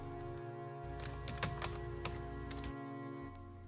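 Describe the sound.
Soft tapping on a computer keyboard, a short burst of several quick keystrokes in the middle over a steady low electrical hum, faint overall.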